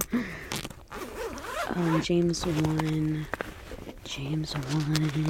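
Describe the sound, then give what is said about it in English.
A zipper on a Bible case is drawn open in a steady, rasping pull while a voice sounds throughout and partly overlaps it. “let me bring it up in my Bible, because I didn't write that one down. You're hearing it now. You're going to hear me unzip it.”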